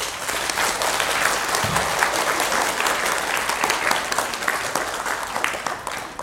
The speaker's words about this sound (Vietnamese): Không có gì hạnh phúc bằng được nghỉ, cho nên mừng quá vỗ tay.